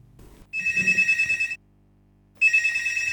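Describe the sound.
A telephone rings for an incoming phone-in call: two bursts of bright, steady electronic trilling separated by a short silence, with faint low rumbling under the first ring.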